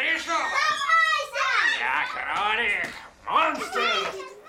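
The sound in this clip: Children at play chatter and call out in high, lively voices, loud and continuous throughout with only brief dips.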